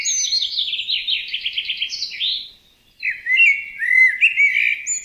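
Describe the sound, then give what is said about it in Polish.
A song thrush sings loud, bright, high whistled phrases built from quickly repeated notes. A brief pause follows, then another varied phrase, with no other sounds. “głos, który czasem słychać w tle, należy do drozda śpiewaka.”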